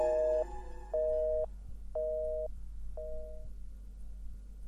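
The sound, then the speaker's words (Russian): A telephone busy signal plays after a call ends: four short, evenly spaced beeps about a second apart, steady in pitch and fairly faint, over a low constant hum. “Молчание в телефоне сменилось короткими гудками.”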